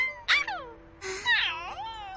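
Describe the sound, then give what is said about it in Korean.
A puppy whimpers in two high-pitched, wavering whines, the first brief and the second longer, its pitch sliding down and then back up. “아기가 아니라 강아지였네. 멍멍아, 다친 데는 없니?”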